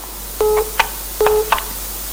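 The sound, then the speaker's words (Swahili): Electronic telephone tones signal an incoming call in a studio: two identical sequences, each a steady mid-pitched beep followed by a brief higher chirp, clear and alone over a faint hiss. “Naam, napokea simu nyingine hapa.”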